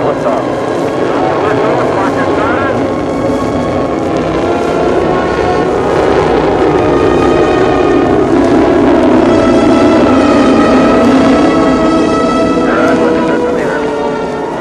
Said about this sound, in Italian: Engine start. This is Mercury Control. The count is 10.